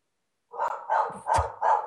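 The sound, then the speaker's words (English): A dog barks four times in quick succession, each bark a short, fairly loud, mid-pitched burst with no talk over it. “I'm sorry about the dog.”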